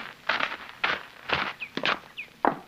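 Footsteps of someone walking into a cabin in a Western drama: several dull, evenly spaced thuds, fairly faint, with a couple of brief higher squeaks between them.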